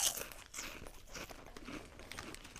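Crunching of spicy Tato Hearts crisps, with the bag crinkling, gives a quick series of dry, crackly crunches, quiet and uneven in rhythm, with no talk over them.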